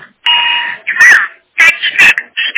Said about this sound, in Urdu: تو دیکھیے talking watch اس طرح بولتی ہے, اگر یہ ٹاکنگ واچ آپ کو چاہیے تو 350 روپے میں ملے گی. اس کا آواز سنیے